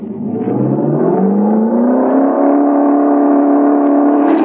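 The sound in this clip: An engine runs at full throttle with a loud, continuous roar whose pitch climbs steadily over about four seconds. No one talks.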